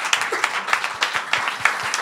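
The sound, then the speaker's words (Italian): Audience applause at a live evening show, dense and steady clapping with sharper claps standing out, with a faint voice underneath. “22 dicembre, un applauso di nuovo.”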